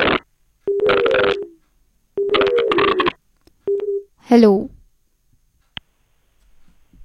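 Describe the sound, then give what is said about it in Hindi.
A telephone line rings while a call is placed to connect a caller. Two long, buzzy ringing bursts come first, followed by a shorter one and a brief sweeping sound, with silence between them. “चलिए श्रोताओं, हम कोशिश करते हैं एक आखिरी collar से programme के अंत से पहले जुड़ने की।”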